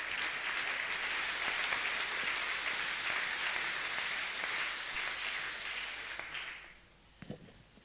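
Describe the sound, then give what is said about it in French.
A church audience applauds after a call to acclaim the word of God, a dense, steady wash of clapping that holds for several seconds, then fades, leaving a few scattered claps. “Gloire au Seigneur, acclamons la parole de Dieu.”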